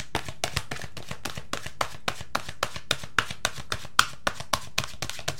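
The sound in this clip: Cards from an oracle card deck are handled in a quick run of many crisp, papery slaps at a steady, even rhythm.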